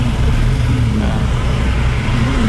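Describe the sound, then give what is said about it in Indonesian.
Car moving off again in a traffic jam, with a loud, steady low engine rumble and road noise and a few gentle rises in engine pitch. “Ini padat loh. Tadi sampai macet mungkin 5 menitan mungkin. Oh, jalan lagi. Nah, sekarang gerak lagi”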